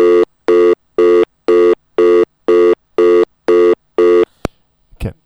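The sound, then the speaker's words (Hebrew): A telephone busy tone follows a disconnected call as nine evenly spaced, loud, steady-pitched beeps. The beeps are followed by a sharp click and a brief rustling handling noise. “התנתקנו, כמו שדיברנו, אני הולך לחייג מיד לאורי קידר שוב.”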